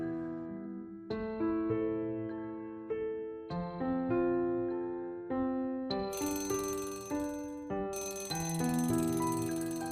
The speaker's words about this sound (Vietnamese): Tiếng chuông đồng hồ báo thức treo in ỏi đánh thức Thùy Dương